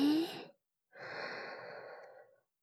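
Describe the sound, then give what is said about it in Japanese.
Breathing in and out during a breathing exercise: two audible breaths, a short one followed by a longer, steadier one after a brief pause, soft and airy with no talking. “で、吐いて、吸って、”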